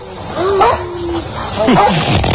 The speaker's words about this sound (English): the dogs weren't going crazy like this when we were out there. They were when we howled and we got them all in the middle together.